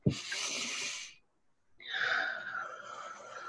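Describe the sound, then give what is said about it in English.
A deep, calming breath: two long, airy breathing sounds separated by a short silent pause, the second slightly voiced and sigh-like. The breathing is moderately soft and heard alone. “Okay, so just take a deep calming breath.”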